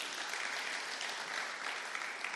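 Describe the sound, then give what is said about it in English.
A church audience claps hands together during a service, a steady, dense wash of applause that holds at an even, moderate level for the whole stretch with no distinct individual claps standing out. “Can we clap our hands for Jesus?”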